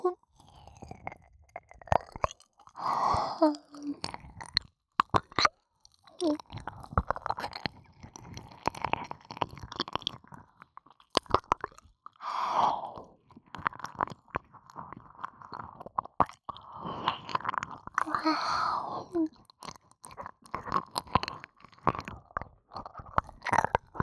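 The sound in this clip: Close-up chewing of food: many crisp clicks, crunches and wet smacks in an uneven rhythm, with short pauses between bites and soft breathy sounds.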